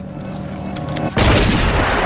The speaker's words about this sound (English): who easily shoots him down.